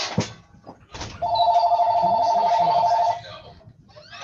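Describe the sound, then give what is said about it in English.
A telephone rings with one long, steady electronic tone lasting about two seconds, clear and loud, with brief faint noises before and after it. “Someone's got to pick up the phone.”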